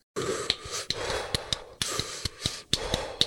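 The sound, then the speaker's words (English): Rhythmic breathing while jumping rope with double-unders, airy inhales and exhales alternating jump to jump, punctuated by many sharp, regular taps. “something like double unders, where you're going to inhale on one jump and then you'll exhale on the next jump. So it'll sound something like this.”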